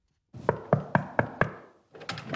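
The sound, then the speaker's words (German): Five evenly spaced knocks on the door of a town official in Kreuzlingen, moderately loud and crisp. A brief pause follows, then a short burst of a different, rougher sound. “beim Stadtpräsident Thomas Niederberger an die Tür geklopft”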